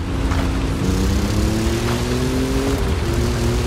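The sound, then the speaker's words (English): Engine of a car accelerating in a driving video game set in Mexico: a steady, loud motor drone whose tone climbs gradually for a few seconds, then dips briefly near the end. “Press right trigger to accelerate.”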